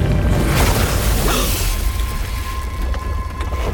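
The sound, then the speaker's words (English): A booming magical explosion effect as a sword is plunged into a magic cauldron: a loud, rumbling roar of noise that keeps going, with a thin ringing tone rising out of it in the second half. “Quick, Prince! Plunge your sword into the cauldron!”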